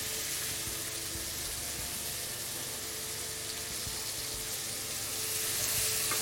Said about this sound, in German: Das Gemüse rösten wir jetzt an, bis es goldbraun ist. In der Zwischenzeit können wir schon mal Champignon rösten.